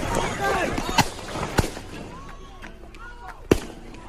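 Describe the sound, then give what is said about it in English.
Gunshots ring out as a man draws a gun and fires during a confrontation with police: three sharp, isolated bangs, the last loudest, spread across a few seconds over a noisy background with indistinct voices. “Guy goes for a gun and shoots him.”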